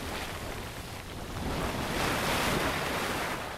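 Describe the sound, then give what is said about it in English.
Rushing, splashing water from a small geyser in a geyser basin in Yellowstone National Park, heard as a steady, dense hiss that swells slightly midway and holds, with no voices. “It's a small geyser, and how much water it shoots up depends on the time of year.”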